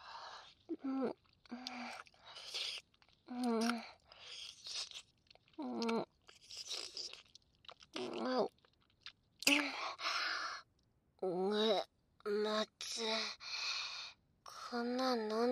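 Chewing and crunching as someone tastes food: repeated crunchy bites and munching, interspersed with voiced murmurs and sighs, continuing in short bursts throughout.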